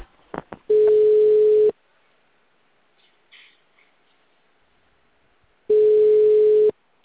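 Telephone tone after a dropped call: two long, steady mid-pitched beeps, each about a second, separated by a long quiet gap, with a few faint clicks at the start.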